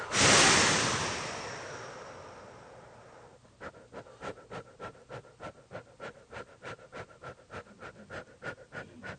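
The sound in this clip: A deep breath in and out, loud and rushing at first, then fading away over about three seconds, followed by a long steady run of many soft, evenly spaced rhythmic pulses.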